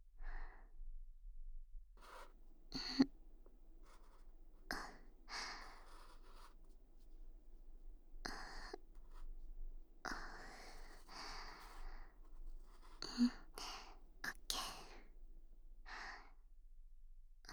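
Hard-tipped pen writing Japanese characters on paper during a penmanship lesson, faint scratchy strokes coming in short bursts separated by quiet pauses, with no talk.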